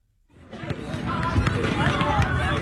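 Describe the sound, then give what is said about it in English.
Basketballs bounced by Liberty fans at an outdoor celebration event at Brooklyn Bridge Park on a hot, sunny day, forming a dense, continuous wash of dribbling amid crowd noise and voices. “Liberty fans are dribbling basketballs at Brooklyn Bridge Park from Pier 6 to Pier 1”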